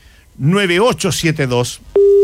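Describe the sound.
A telephone busy tone after a dropped call cuts in abruptly at one steady pitch, loud and unbroken, right after a voice finishes speaking.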